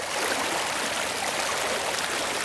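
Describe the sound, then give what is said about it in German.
A desert wadi stream rushing forcefully through barren ground makes a steady, dense rush of water that holds an even level from start to end, with no voices. “sich der Bach Wadi al-Auscha mit Wucht seinen Weg durch den kargen Boden.”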